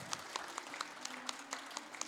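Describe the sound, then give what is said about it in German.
Faint, thin audience applause as a tribute at an event: a handful of separate, evenly spaced claps in a steady rhythm, with no other sound over them. “Eine tolle Frau, das verdient Applaus.”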